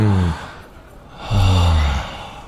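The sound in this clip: A group of people taking a deep breath together, heard as two loud, voiced sighs of exhaled breath separated by a quieter stretch of breathing.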